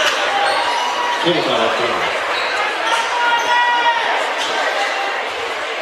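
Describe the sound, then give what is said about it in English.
A basketball bounces on the court before a free throw in a third-quarter game. A few dull thuds sit under a loud, steady crowd murmur. “Shooting a free throw here and missing the first.”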